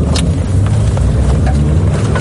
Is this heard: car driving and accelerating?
yes